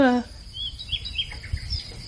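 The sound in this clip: Little birds chirp and tweet in many short, high, fairly faint calls over a low rumbling background, with a brief falling tone at the very start.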